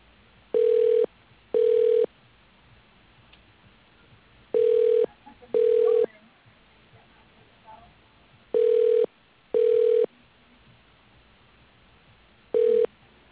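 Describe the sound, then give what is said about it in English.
A telephone ringback tone plays as a call is transferred to voicemail: three paired rings of a steady mid-pitched tone, separated by quiet line hiss, followed by the start of a fourth. “I could transfer you to his voicemail.”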